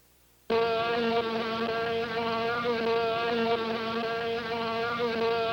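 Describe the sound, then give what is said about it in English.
A very loud fly buzzes, cutting in abruptly from near silence into a steady, rich droning hum that barely wavers and holds for about five seconds with no voices. “It was a fly. Very loud fly.”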